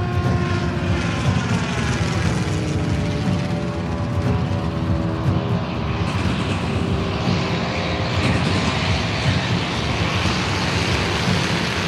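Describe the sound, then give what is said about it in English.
Propeller engine of an early flyer during a catapult-launched takeoff, a loud, continuous droning hum with a steady low throb that holds evenly for the whole stretch. “With this first catapulted takeoff, man's age-old dream of flight became a reality.”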